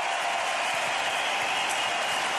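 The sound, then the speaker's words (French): Dense, sustained applause from a tennis crowd giving an ovation for the final point of a player's career, a steady, even wash of clapping with no clear breaks for the whole clip. “L'ovation ultra méritée.”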